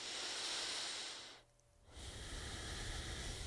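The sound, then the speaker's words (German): Deep breathing during a guided exercise: a long, loud breathy rush, a brief quiet gap, then another long breath that carries on to the end. “Dann nimm ein, zwei tiefere Atemzüge.”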